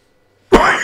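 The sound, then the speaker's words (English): A single loud cough bursts out abruptly after half a second of silence, harsh and breathy, its rough tail carrying on to the end. “Oh gosh, sorry. It should be a cough button, but there isn't.”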